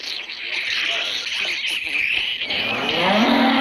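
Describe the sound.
A cow, with a person's arm inside it, lets out a long, loud, continuous moo. The drawn-out low stays strong throughout and climbs in pitch toward the end.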